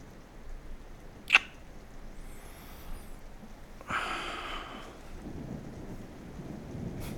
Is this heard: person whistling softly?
no